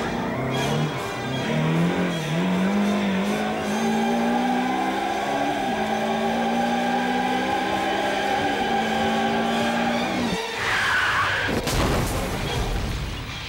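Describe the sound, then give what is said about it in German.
A white Ferrari's engine drones and revs on a winding Alpine road, its pitch gliding up and down, before a sudden loud crash as it slams into a rock wall near the end. “Es war der weiße Ferrari von Reto Huweiler, der nur 3 Tage später auf einer kurvenreichen Alpenstraße gegen eine Felswand prallte.”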